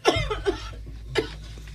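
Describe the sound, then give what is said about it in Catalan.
Dry, persistent coughing: three short, harsh coughs, two close together and one after a pause, over a low steady hum. “Una tos seca, persistent, que sembla tallar el silenci de la postguerra.”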